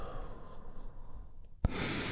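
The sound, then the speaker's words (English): A deep breath in and out during guided relaxation: a soft, airy inhale, then a sudden, louder rushing exhale that holds steady to the end. “together we take a big, deep healing breath right now. Here we go. And release.”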